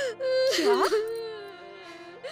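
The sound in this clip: A young girl cries to her mother, whimpering and sobbing in a high, wavering voice that swoops up and down, then trails off into quieter, shaky breaths.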